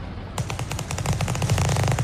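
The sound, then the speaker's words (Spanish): Gangsters' gunfire: a dense, rapid machine-gun-like volley of many shots that starts abruptly after a quieter moment and continues loudly without pause to the end. “Pues te están disparando, pues mira, los están matando.”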